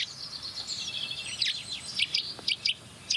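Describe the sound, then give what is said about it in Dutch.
A Eurasian nuthatch calls in a series of short, high, whistled chirps that grow sharper and more spaced toward the end, over a faint background hiss. “Boomklever.”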